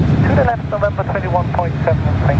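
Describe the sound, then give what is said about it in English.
A Qantas Airbus jet touches down at Melbourne Airport after a 19-hour non-stop flight, its engines a steady, loud low roar while a person talks over it. “After 19 hours of non-stop travel in the sky, touchdown finally at Melbourne Airport.”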